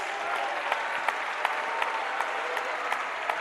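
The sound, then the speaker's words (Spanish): Applause during a church service: dense, steady clapping from a crowd, with stronger claps landing on a regular beat throughout. “Cuando le dan un aplauso a la gloria de Dios,”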